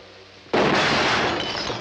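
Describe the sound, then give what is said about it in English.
Glass window shattering as a gunshot bullet smashes through it: one sudden loud crash, followed by a sustained spray of breaking glass that fades slightly toward the end. “Emma watches her, her teeth gritted with hatred, then fires. The bullet smashes through a window behind Vienna's head.”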